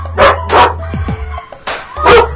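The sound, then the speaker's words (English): Dogs from a neighbouring farm bark in a few sharp, loud bursts, with a pause in the middle, over a steady low hum. “we have dogs around here”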